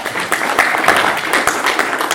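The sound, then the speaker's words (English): Audience clapping after a talk on data and political economy, many hands beating in a dense, steady patter of sharp claps at a fairly loud level throughout. “Thank you very much. Let's clap for a moment.”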